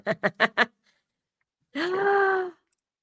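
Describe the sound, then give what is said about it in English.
A big yawn, drawn out into a sustained, slightly falling vocal tone lasting under a second, coming after four short, clipped bursts and a brief silence. “Big yawn.”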